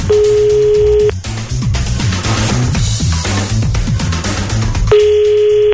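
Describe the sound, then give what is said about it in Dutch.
Telephone ringing tone while calling a supermarket: a steady beep at the start and another near the end, separated by a long pause, over rhythmic music playing underneath. “Mooie dag om de Albert Heijn te bellen.”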